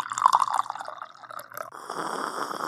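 Tea poured into a cup: a few splashy drips at first, then a steady, faint trickle of liquid running on to the end.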